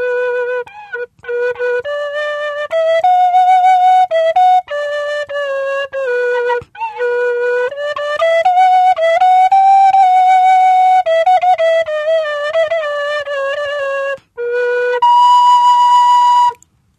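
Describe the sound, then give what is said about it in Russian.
A large alto svirel, a wooden folk pipe not made of apricot wood, plays a breathy melody of sustained, clearly pitched notes with brief pauses between phrases, ending on a long, steady, higher held tone. “Вот эта свирель побольше, это альтовая свирелька. Но это уже не абрикос, это что-то другое.”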